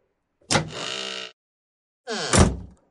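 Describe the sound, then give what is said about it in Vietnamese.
Front door of a house swinging open: two drawn-out scraping, creaking movements, the first starting with a sharp click and lasting nearly a second, the second shorter and louder with a heavier low bump. “Cửa nhà mở ra”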